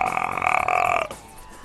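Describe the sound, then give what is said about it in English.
A baby burps after a bottle of milk: one drawn-out, tonal belch lasting about a second, fairly loud, then near silence. “you got a burp for Grandma? You got something in your throat?”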